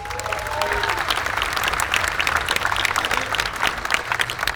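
An audience applauds to welcome a bluegrass mandolin player at a music festival, with steady, dense clapping throughout.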